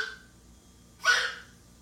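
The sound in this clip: A pet dog choking gives a single short, raspy hacking burst midway through, fairly faint, with near silence around it.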